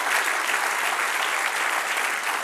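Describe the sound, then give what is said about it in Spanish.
A church audience applauds with continuous, dense clapping. The applause is steady and fairly loud throughout and stays even from start to finish, with no break or clear rise or fall. “Dale un aplauso al Señor.”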